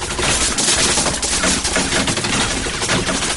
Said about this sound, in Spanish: Las balas impactan en los cubos. Fuera, dos hombres apuntan al remolque con metralletas.